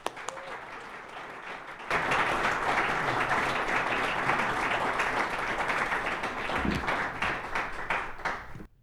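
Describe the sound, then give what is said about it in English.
Audience applause welcoming a speaker at a talk: after a short quieter lead-in, dense, loud clapping breaks out and holds steady, thinning slightly at the very end. “Please put your hands together to welcome the 20-year executive producer of To the Best of Our Knowledge, Steve Paulson.”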